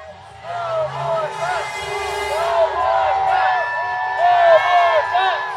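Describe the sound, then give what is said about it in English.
Hundreds of teachers, students, community members and activists chant at a protest for Colorado's public schools, massed voices carrying a rhythmic call over a low, steady rumble. “What you're hearing are hundreds of teachers, students, community members, and activists protesting on behalf of Colorado's public school system.”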